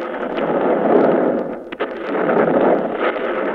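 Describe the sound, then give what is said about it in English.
Grenades exploding in a wartime scene: a loud, dense roar of blast noise that runs throughout, with one sharp crack partway through and no voices. “we will explode grenades here to make it look right.”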